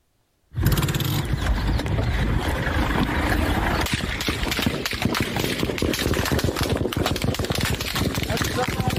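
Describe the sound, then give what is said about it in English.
Gunfire from soldiers, captured on a cell phone inside an ambulance under attack: a loud, distorted, continuous barrage of many sharp cracks that grows denser and more rapid partway through. “That's the sound of gunfire from Israeli soldiers.”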